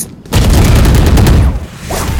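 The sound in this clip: Gunfire in a tactical shooting video game: after a brief quieter moment, loud rapid shots crack out in quick succession and stay dense and sustained to the end.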